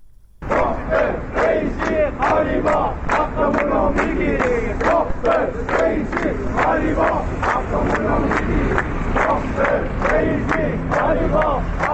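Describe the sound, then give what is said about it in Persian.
A crowd of protesting retirees in Ahvaz chants slogans in unison. The loud, rhythmic shouted phrases repeat continuously with a steady beat and no pauses. “این صدای گروهی از بازنشستگان در اهواز است.”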